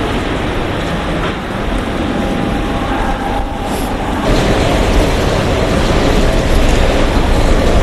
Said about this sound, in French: Ensuite, il attend le train au quai A1.